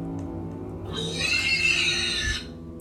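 High-pitched pig squeal sound effect in a haunted attraction: a single shrill, sustained squeal lasting over a second rises out of a steady low droning background and then cuts off.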